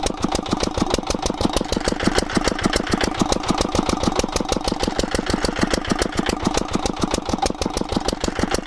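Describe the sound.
Engine of a drilling rig boring a water well in a house yard, a loud, continuous drone with a fast, even thumping pulse that holds steady throughout.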